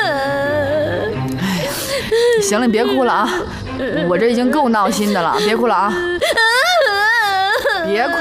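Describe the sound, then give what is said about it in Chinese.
A person cries in loud, wavering sobs and wails, several uneven bursts with the pitch sliding up and down. “行了，别哭了啊，我这已经够闹心的了，别哭了啊！别哭了，别哭了，我求你了，别哭了！”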